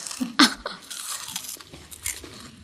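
Crunchy chewing of meat, a sharp crisp bite followed by moist, irregular mastication noises, fairly quiet and with no talk.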